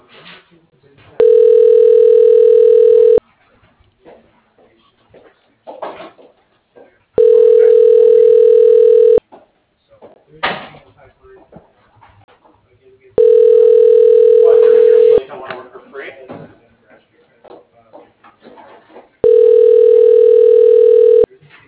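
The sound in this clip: Telephone ringback tones sound while a call is transferred to voicemail: four long, steady, mid-pitched tones of about two seconds each, evenly spaced and separated by gaps of quieter line noise.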